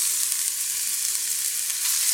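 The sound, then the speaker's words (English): Thinly sliced onions sizzle as they hit a hot skillet over fairly high heat, a loud, steady crackling fry that runs evenly throughout with no talking. “So I'm going to go ahead and add the onions thinly sliced right into my skillet. You can probably hear them hit.”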